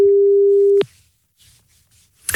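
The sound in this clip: A telephone line tone sounds while a listener is being dialled: one steady, mid-pitched tone lasting under a second, then it cuts off into near silence before a short burst of noise at the end.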